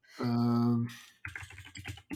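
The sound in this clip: Computer keyboard keys clatter in a quick burst of clicks after a short sustained tone.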